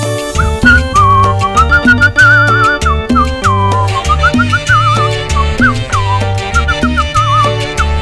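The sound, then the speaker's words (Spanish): A person whistles a wavering, lilting melody over a guajira song, the clear whistled line riding above a steady bass and bright percussion hits throughout. “Bien que chifla usted, ¿eh?”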